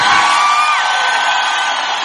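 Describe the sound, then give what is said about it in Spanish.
A crowd shouts a war cry together, a loud, dense wall of many voices held as one long sustained yell throughout. “Aquel que nada ni nadie lo detiene, da un grito de guerra.”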